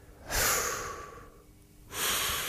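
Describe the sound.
A deep breath in, then a breath out after a short pause. Both are airy and soft with no voice, the inhale slightly longer than the exhale.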